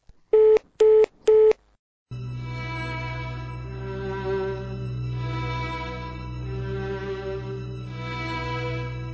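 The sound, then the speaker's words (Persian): Telephone line tone after a call is cut off: three short identical beeps, a brief pause, then a continuous buzzing tone that drones steadily to the end. “شنوندگان عزیز رادیو ندا، متاسفانه تماس ما با این شهروند زلزله زده قطع شد.”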